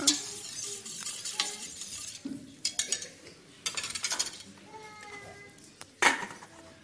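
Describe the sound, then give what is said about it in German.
A spoon stirs salted water in a metal cooking pot, making irregular clinks and scrapes against the pot. Several sharper metallic knocks stand out over a quieter watery swirl. “damit es schneller kocht, tun wir gleich Salz rein. Dann das dann umrühren.”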